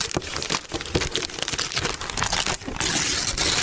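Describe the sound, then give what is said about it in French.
A gift package is unwrapped as a radio sound effect: busy paper crinkling, rustling and tearing in quick bursts, growing into a denser, louder rustle near the end. “Vous avez 3 paquets à votre disposition. 1, 2 ou 3, lequel vous souhaitez déballer? Le 2. Allez, le 2, c'est parti.”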